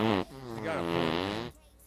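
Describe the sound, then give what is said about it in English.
A drawn-out, buzzing fart lasting about a second, low and wobbling in pitch, ending abruptly. “I just wanted to fart on two people.”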